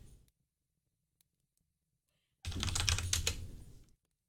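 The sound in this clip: Typing on a keyboard: a quick burst of rapid key clicks lasting about a second and a half, fairly faint, after near silence broken by a couple of soft ticks.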